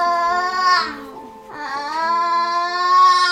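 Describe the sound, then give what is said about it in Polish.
A child cries during physiotherapy standing exercises, a loud sustained wailing cry that dips briefly in the middle and then swells again, with a strained, complaining quality throughout. “Kiedy dziecko przy ćwiczeniach płacze albo żali się, no to rzeczywiście nie wszyscy wytrzymują.”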